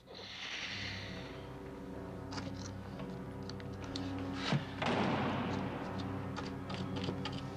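A hand tool hacks and chips at a concrete wall, giving a few dull thuds and scattered taps over a steady low background hum.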